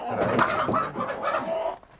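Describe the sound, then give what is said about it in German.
Laying hens and a rooster clucking in agitation after being startled, a dense, continuous stretch of overlapping clucks and squawks at moderate loudness that tapers off at the end. “4 Legehühner und 1 Hahn müssen mit.”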